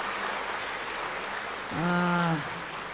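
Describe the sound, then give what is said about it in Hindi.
An audience from Karnataka applauding at a gathering, continuous dense clapping with a brief voice rising over it shortly before the end. “Karnataka wonderful ताली बजाओ wonderful”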